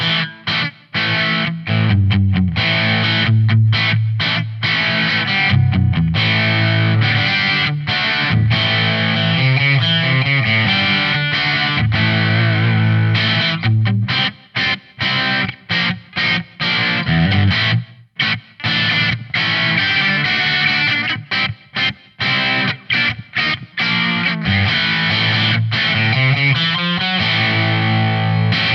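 Heavily distorted electric guitar played through a classic Plexi amp preset on a phone-controlled modeling amp, with loud, continuous strummed chords and riffs and short choppy gaps, played alone.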